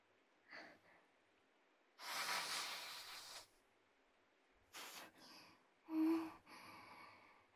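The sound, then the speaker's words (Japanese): Sniffling from a runny nose: a few short nasal sniffs, then one long hissing intake, followed by quicker sniffs and a firmer snort-like pull of breath. No talking. “ああ、もう、知らない人の前で鼻水垂らすとか最悪だよね。”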